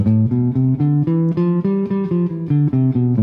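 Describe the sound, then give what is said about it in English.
A G Mixolydian scale, the same notes as a C major scale, played on a pitched instrument in a jazz scale lesson: a steady run of many distinct notes climbing and then descending, heard alone. “so really you're just playing a C major scale when you're playing a G Mixolydian. So sounds like this.”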